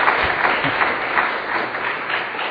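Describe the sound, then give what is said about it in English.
Audience applause to encourage a woman coming up to tell her story: dense, continuous clapping from many hands that starts strong and eases slightly toward the end. “I think you need to clap a little louder just to give her some encouragement.”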